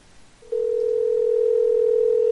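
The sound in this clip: A telephone dial tone heard while calling someone back, cutting in after a short quiet moment and holding one steady, unbroken pitch, loud and alone.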